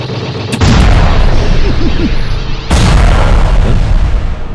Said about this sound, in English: you see the bottom turret swivel, and he shoots two speeders out of the air.